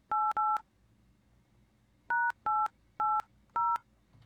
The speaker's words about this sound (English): Let's see if we can get her on the line here.